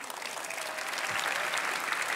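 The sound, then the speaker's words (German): Audience applause for musicians who have just played a Viennese song, a steady wash of many hands clapping at fairly low volume that builds slightly toward the end. “Das ist euer Applaus.”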